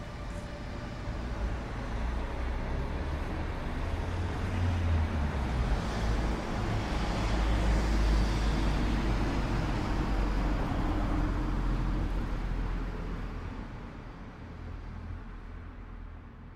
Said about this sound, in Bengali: বলপকরমের দিকে যাওয়ার প্রথম ট্রাকটা স্টার্ট নিচ্ছে আমি চুপি চুপি ডালা ধরে উঠে পড়লাম ট্রাকটার পিছনে